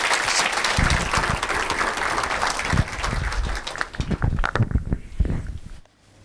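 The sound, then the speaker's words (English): Audience applause welcoming a pastor at a church gathering in Durban: dense, steady clapping that holds for several seconds before cutting off abruptly near the end. “Just give Pastor Tamo a hand.”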